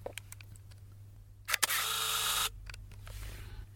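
A camera shutter firing at 1/500 second under a duvet: a couple of sharp clicks followed by a loud, steady mechanical whirring burst lasting almost a second, over a low background hum.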